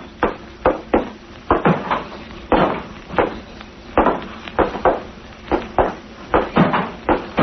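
A loose, open hatch on a vessel bangs over and over in rapid, irregular knocks. The wooden-sounding thuds are fairly loud and come with no voices.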